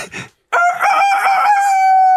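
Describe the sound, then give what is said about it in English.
A person imitates a cockerel crowing in one loud, drawn-out crow. It starts wavering and settles into a steady held note, after a brief faint sound at the start. “Cockerel Call number one”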